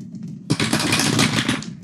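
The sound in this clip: Two d20 dice clatter down through a dice tower in a dense, rattling burst of hard clicks that starts abruptly and lasts about a second before cutting off.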